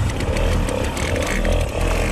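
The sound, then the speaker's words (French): A Peugeot 103 moped engine running, a steady, loud, raspy buzzing drone over a rough low rumble, holding an even pitch throughout with no voices. “Ça, c'est le bruit d'une machine qui parle à beaucoup, beaucoup de nos auditeurs. Le Peugeot 103 qui nous propulse directement en 71.”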